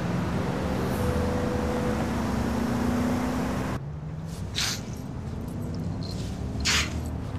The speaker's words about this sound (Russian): По трассе мчит машина.